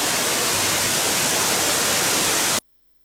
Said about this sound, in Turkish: Mahalle sakinleri buz gibi suyuyla serinleten Koramşalı Şelalesi'nin doğa severler tarafından görülmeye değer olduğunu belirtiyor.